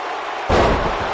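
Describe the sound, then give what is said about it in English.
A wrestler slams an opponent onto the mat with a fallaway slam, one heavy booming thud with a sharp onset partway through, over a steady background din. “Into a fall away slam.”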